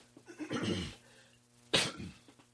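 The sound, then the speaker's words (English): A person's coughing fit from choking comes in two bursts: a longer, rough, throaty hack first, then after a short pause a sharper, sudden cough, both fairly faint. “Excuse me, and I apologize. Choking a little bit, I'll be okay.”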